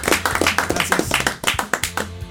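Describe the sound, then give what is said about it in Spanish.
Applause welcoming a guest onto a program: many sharp, loud hand claps in a quick, fairly regular rhythm, with no talk over them. “un aplauso para él”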